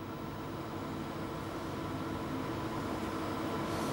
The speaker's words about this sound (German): Das CT fährt jetzt ein sogenanntes Topogramm. Das ist im Grunde nach ein Röntgenbild.